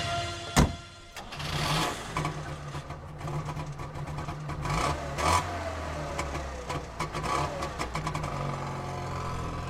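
A Trabant car engine running and revving as the car drives off, a rough mid-pitched drone with clattering bursts that stays at a fairly steady level.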